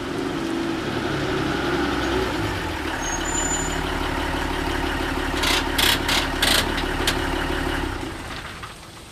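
A delivery van's engine holds a steady low idle as it reverses toward a loading dock, joined near the end by a few sharp clanks before the engine sound drops away.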